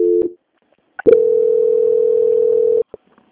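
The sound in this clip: A telephone tone plays during a call transfer: a brief beep, a short pause, then a steady single-pitch tone held for about two seconds before it cuts off, followed by one short blip. No one speaks.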